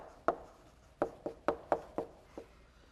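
Chalk strikes a board as a lecturer writes during a lecture on heaps: seven crisp taps, each with a short scraping tail, in an uneven rhythm, the last one softer, with no talk.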